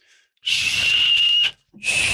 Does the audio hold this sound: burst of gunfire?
no

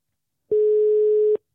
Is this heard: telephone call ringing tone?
yes

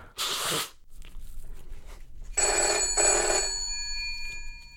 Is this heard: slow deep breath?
no

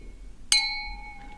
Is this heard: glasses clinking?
yes

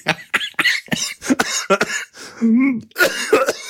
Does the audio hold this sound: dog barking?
no

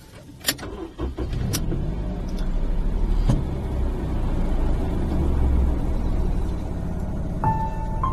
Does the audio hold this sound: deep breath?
no

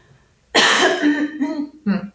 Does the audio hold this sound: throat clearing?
yes

